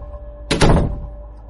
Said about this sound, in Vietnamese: Tôi đóng cửa lại, toàn thân tỉnh táo.